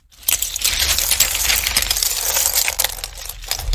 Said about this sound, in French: Bull et Bob reviennent au château et vident leurs trouvailles.